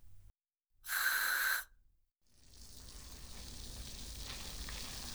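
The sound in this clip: Carbonated shampoo is lathered in the hands, giving a fine crackling fizz that builds gradually and holds steady. It comes after a brief sharp hiss as the shampoo is dispensed. The sounds are quiet and there is no talk.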